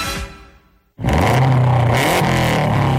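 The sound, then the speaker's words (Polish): A 280-horsepower rally car engine revs hard, cutting in abruptly after a fading passage and holding a loud, continuous, gritty roar with a steady throbbing drone. “Tak brzmi 280 koni mocy samochodu rajdowego Kajetana Kajetanowicza, dwukrotnego mistrza Europy.”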